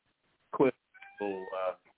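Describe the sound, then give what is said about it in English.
A cat meows twice: a short call, then a longer, drawn-out one. Both are fairly loud against an otherwise quiet background. “Hold on, I got a cat.”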